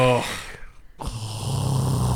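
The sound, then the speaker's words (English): A man imitates a roommate's Darth Vader-like snoring at space camp: a short voiced sound, a brief pause, then a deep, rasping, drawn-out breath that holds steady to the end. “sounded like Darth Vader when he snored. Oh boy. It was the most creepy thing ever, because he'd be like, wow.”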